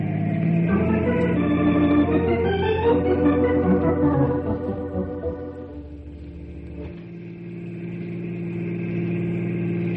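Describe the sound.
A car engine drones as the car drives and makes a U-turn to follow another car; a steady mid-pitched hum, fairly loud, dips in level midway before building again, with no talk.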